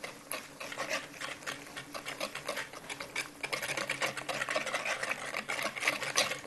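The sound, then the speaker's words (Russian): Sugar mixture whisked vigorously with a hand whisk, a dense run of fast, steady scraping strokes that keeps up without a break and grows slightly louder in the second half, with no talking. “Взбиваю веничком. Да, надо динамично очень взбивать, чтобы масса увеличилась.”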